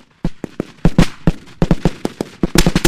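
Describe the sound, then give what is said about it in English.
Machine guns firing during Liberian army training on dry land south of Monrovia: many sharp, irregular bangs, each cracking out alone and growing denser and louder toward the end. “On a patch of dry land south of Monrovia, young Liberian soldiers crawl on their stomachs through the brush, firing machine guns and tossing smoke bombs.”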